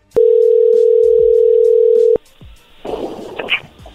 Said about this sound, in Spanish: ¿Colgó? A ver, márcale de nuevo, por favor.